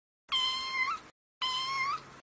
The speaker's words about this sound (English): My cat climbed up the tree and now he can't go down.